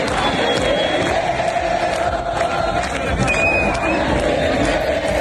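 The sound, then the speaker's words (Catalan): Argentina fans celebrate a World Cup win in Plaça de les Glòries, Barcelona. A dense crowd shouts and cheers loudly and steadily throughout, with many overlapping voices blending into a continuous roar. “És el so de la plaça de les Glòries, l'escenari de la gran celebració de l'Argentina amb un España tiene miedo.”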